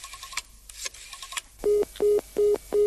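A telephone is dialed with a few short clicks, then the line answers with a busy signal: four evenly spaced, identical mid-pitched beeps.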